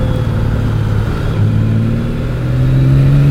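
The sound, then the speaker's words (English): A motorcycle engine accelerates while riding in town, a loud, smooth, continuous drone that holds steady and rises in pitch toward the end, with no talk. “It's just so smooth. That motor is addictively smooth. It just pulls too. It's just great. And I think, truthfully, I think that's part of what makes this bike so much fun to ride around”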